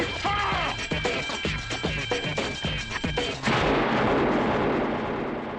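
Gunfire in a tense film scene from the movie Juice: a rapid run of many sharp, loud shots cracking in quick succession, then giving way to a steady, heavy rush of noise for the last couple of seconds.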